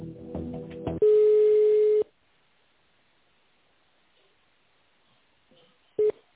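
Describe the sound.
A telephone line tone sounds while a call is being transferred: one loud, steady, even-pitched beep lasting about a second, then near-silence, then a short repeat of the beep near the end.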